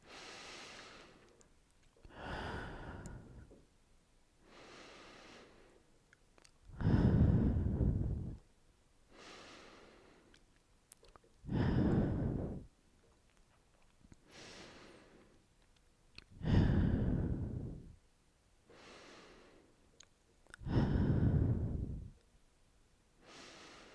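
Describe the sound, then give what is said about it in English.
Deep, slow breathing: several full cycles of soft inhales through the nose alternating with louder, rushing exhales through the mouth, in a steady unhurried rhythm with no talking. “take 6 deep breaths with me in through your nose and out through your mouth.”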